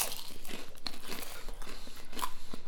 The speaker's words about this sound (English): So we're having some Marmite rice cakes.